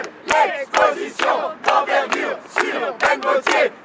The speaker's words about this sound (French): le musée Mayol où une foule impressionnante s'est rassemblée. Les gens attendent avec impatience de redécouvrir l'œuvre de cet artiste subversif. Écoutez plutôt.